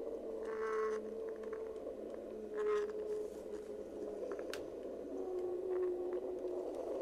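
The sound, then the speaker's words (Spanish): Faint whale song: long, sustained tonal moans that glide slightly in pitch, with a few short higher bursts scattered between them over a soft background hiss. “este es el canto de la ballena y bueno, son sonidos además relajantes”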